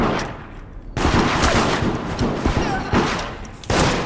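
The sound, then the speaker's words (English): Video game gunfire erupts in loud, rapid automatic bursts, dense crackling volleys that pause briefly and then resume with renewed force. “Why are you shooting me?”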